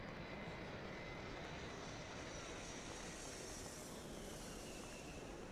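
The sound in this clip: A sound effect of an airplane taking off: a continuous broad engine roar that stays steady and even throughout, faint and without any voices.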